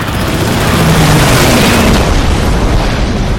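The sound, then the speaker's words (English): A 1,000-pound bomb explodes on a cruiser's gun turret during a dive-bomber attack. The blast is a loud, sustained roar that fills the whole clip and thins out slightly toward the end. “Roaring helldivers charge through the flak screen, their deafening drum of machine guns climaxing with the ear-splitting blast of a 1,000-pound bomb which obliterates turret number one,”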